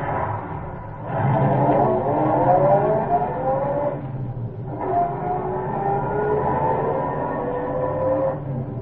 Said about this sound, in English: he took his few minutes and cleared the carburetor, stepped again on the reluctant starter,